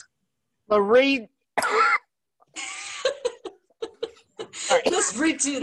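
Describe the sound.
Coughing and throat clearing from a tickle in the throat: a few rough, hoarse bursts, followed by people talking and some chuckling.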